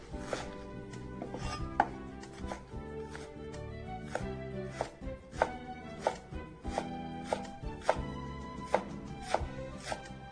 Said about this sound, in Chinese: 那我们现在呢把这个小鱼的这个苋菜羹的这个苋菜呢先剁碎好备用